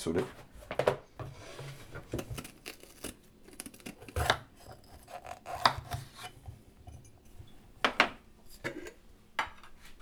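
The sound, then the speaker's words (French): A knife slices a bell pepper for an omelette in a home kitchen, giving a run of quiet, irregular crisp cuts, scrapes and taps against a board, with brief pauses between strokes. “Donc là, je vais découper mon poivron pour le faire”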